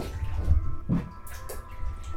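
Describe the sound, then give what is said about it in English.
Bath water sloshes and splashes softly as someone steps into a filled tub, with low churning surges and a few light drips. “And I'm about to get in the tub.”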